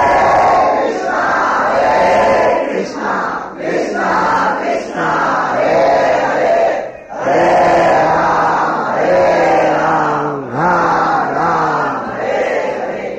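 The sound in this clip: Crowd of devotees chanting the holy name in the streets, a loud unison chant in repeating melodic phrases with a steady rhythm and brief dips between lines.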